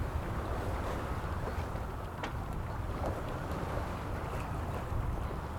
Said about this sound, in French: Ça me fait vraiment penser à une coquille de noix un peu qui est ballottée par les flots là et qui avance comme elle peut.